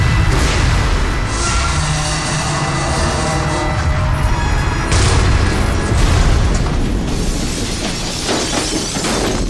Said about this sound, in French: Nous allons atterrir. Et atterrir, mais nous n'avons même pas commencé la manœuvre. Tu as tout à fait raison. Nous sommes en train de nous écraser.